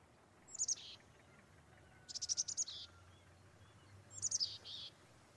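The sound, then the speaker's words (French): Song of a tit, a small common bird that visits feeders in winter: three short, high-pitched bursts of chirping notes separated by pauses, faint and alone. “Ce que vous entendez là, c'est le chant d'une mésange.”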